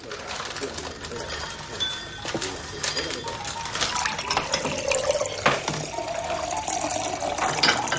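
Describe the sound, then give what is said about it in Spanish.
A glass is turned over and filled with water in a home kitchen: an irregular splashing trickle of pouring liquid mixed with small clinks and knocks, at moderate loudness. “voltea el vaso y lo llena de agua”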